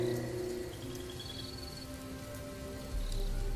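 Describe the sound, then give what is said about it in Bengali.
Heavy rain pours down at night in a dense, continuous hiss, with faint sustained tones underneath and a slight swell in loudness toward the end. “বৃষ্টিটা শুরু হয়েছে সেই বিকেল দিয়ে এখন রাত প্রায় এগারোটা কিন্তু তাও সেই বৃষ্টি কমার জায়গায় আরো বেড়ে গেছে”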